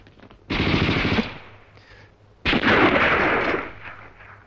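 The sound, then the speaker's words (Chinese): Automatic gunfire in two loud bursts of rapid shots: a short volley first, then after a brief pause a longer, sustained burst that runs to the end. “不站住，开枪了！ 现在开！”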